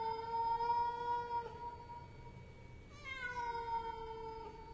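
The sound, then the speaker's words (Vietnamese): A cat meows twice, each meow a long, clear, steady tone. The second comes after a short pause. Both are fairly soft over a faint background hiss. “kêu lên mấy tiếng meo meo”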